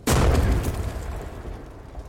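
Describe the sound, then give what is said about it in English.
Shells explode on a burning fire raft next to a warship in a river battle: one sudden heavy boom that rolls into a long, rumbling fade. “Osborne shoves 3 shells off the ship. They land on the fire raft, exploding and sinking it.”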